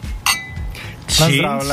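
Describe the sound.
A glass clinks while wine is poured for a toast: one short, bright ringing clink early on, then voices talking over faint background noise.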